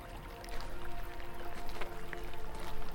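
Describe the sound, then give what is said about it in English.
Gentle water of a nearby brook, a soft continuous trickle and burble that stays faint and fairly even, swelling slightly after the first half second. “Do you hear the water from the nearby brook? Walk with me along the brook.”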